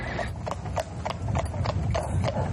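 Horses at a horse fair where people come to buy and sell: many crisp hoof clip-clops in a steady rhythm over a low, busy background rumble.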